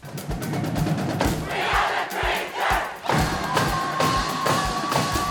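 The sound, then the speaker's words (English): A high school student fan section, the Traverse City West Bleacher Creatures and 2022 Battle of the Fans champions, roars and yells in a dense, loud crowd cheer, with heavy rhythmic thumps pounding through it. “That was the Traverse City West Bleacher Creatures, and that is your 2022 Battle of the Fans champion.”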